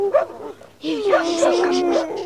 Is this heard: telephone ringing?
no